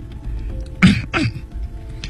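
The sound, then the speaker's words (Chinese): An old librarian clears his throat in two short, rough bursts in quick succession, fairly loud over a quiet background with no talking. “老图书管理员清清喉咙”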